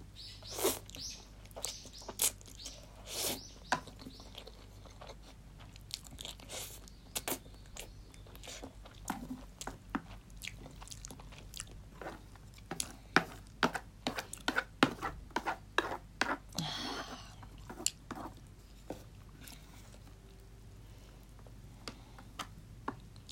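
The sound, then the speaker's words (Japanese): Chewing a large mouthful of food coated in thick sauce, heard as many faint, irregular wet clicks and smacks that come alone, without talk. “まあいいや、食べよう。もうあともうちょいでなくなる。やっぱ一口が大きいから意外とすぐなくなる。”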